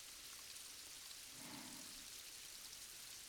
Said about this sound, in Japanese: この雨の音、山々から流れる水の音、